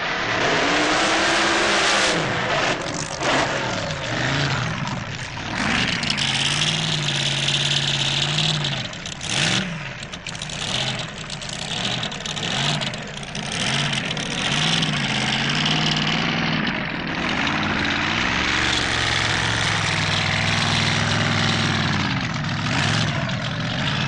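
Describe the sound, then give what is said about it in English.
Supercharged drag racing engines, a blown 7.4-litre Chevrolet and a blown 7-litre Donovan, roar during qualifying: loud, continuous engine noise with revving that rises and falls in pitch over a deep, rough rumble. “Jerry Andrews' blown 7.4-litre Chevrolet and Jim Reed's blown 7-litre Donovan. Remember, they are qualifying.”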